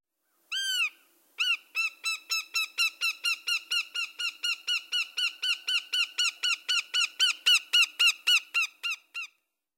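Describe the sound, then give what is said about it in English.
Northern Goshawk call: a single drawn-out opening note, then a long, even series of many loud, harsh, high cackling notes repeated at a steady, rapid rhythm, with no other sounds. “Northern Goshawk.”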